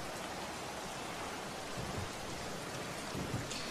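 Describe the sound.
Rain falls in a thunderstorm, a soft, steady hiss of drops that stays even throughout.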